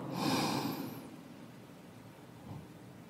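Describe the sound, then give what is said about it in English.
One deep, loud inhale during a guided breathing exercise, a rushing breath that fades into a faint, quieter breath afterward. “take three deep breaths with me. Inhale.”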